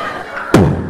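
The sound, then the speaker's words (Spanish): A bomb explosion sound effect from a 3D show: one sudden loud blast bursting out after a steady background hiss, then a heavy low rumble that slowly fades. “En otras partes del mundo, como Afganistán, suena una bomba. No te asustes, mami, esto es un show en 3D.”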